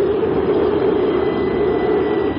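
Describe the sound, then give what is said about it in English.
Steady, loud roar of braking jets from a huge spaceship settling onto desert ground, a dense, unbroken rumble that holds even in level for the whole clip. “It bucks and shudders as it glides to landfall. Breaking jets flare out from the stubby nose and the huge ship hangs suspended.”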